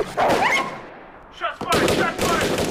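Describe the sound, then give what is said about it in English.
Gunfire rings out in a recorded exchange of shots between federal ATF agents and members of a besieged religious group. Heavy, booming bursts and sharp cracks mix with voices in a noisy, chaotic passage. “So, you know, the ATF is shooting, the Davidians are shooting, Koresh is wounded, agents are wounded.”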